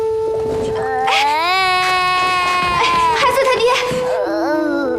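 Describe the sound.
A child cries loudly during a New Year's family meal, in long wailing sobs whose pitch wavers and breaks.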